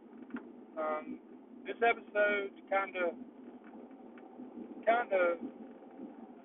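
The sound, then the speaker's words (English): Road noise from inside a Jeep while driving: a steady low rumble with a faint wind hiss runs under a man's continuous talk. “I'm coming at you from my Jeep again. I am driving, so sorry about the noise”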